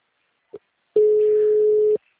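Telephone call tone on a line that ends up forwarded to voicemail: a brief faint blip, a short pause, then one steady low-pitched tone held for about a second before cutting off.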